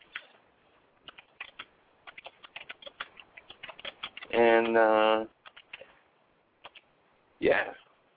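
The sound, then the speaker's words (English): Irregular clicking of someone typing a short message on a computer keyboard, quick light keystrokes in uneven bursts, interrupted twice by a brief voice. “Hold on one second here. I'm just going to type a little message.”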